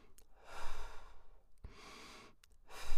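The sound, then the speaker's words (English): Breaths taken between phrases of speech: a few soft, airy inhales and exhales, quiet and breathy, with no voice in between. “And so take a breath.”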